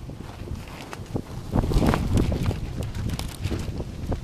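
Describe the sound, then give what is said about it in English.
Gusty wind roars as a broad, rumbling rush that swells after the first second and a half, then stays strong with small surges until the end. “I love that wind.”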